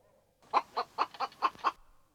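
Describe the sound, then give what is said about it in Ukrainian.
A hen clucking in six short, evenly spaced clucks, fairly faint and alone with no talk. “Каже курка. Ко-ко-ко.”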